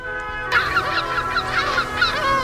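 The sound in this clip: Seagulls call while flying over the coast at sunset, a rapid series of harsh, harmonic cries that overlap one another at an even, fairly loud level.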